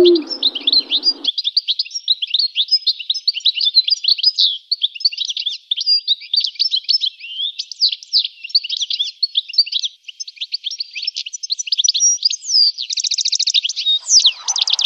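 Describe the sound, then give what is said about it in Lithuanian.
European goldfinch song, a small, colourful finch, pours out as rapid, high-pitched twittering and tinkling chirps, varied and nearly continuous for about fifteen seconds, loud and clear with no other sounds around it. “Dagilis tai visiškai nedidukas, bet vienas iš spalvingiausių mūsų paukščių. Rudų kūnų, juodai geltonais sparnais, raudonai juodai baltai nuspalvinta galva. Jų giesmelė kiek melodingesnė ir įvairesnė negu čivylio.”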